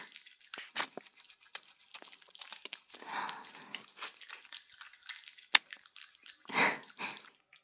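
Wet licking on an ear: many soft slurps and smacks with a few sharp clicks, coming at an uneven pace. It is quiet and has no speech.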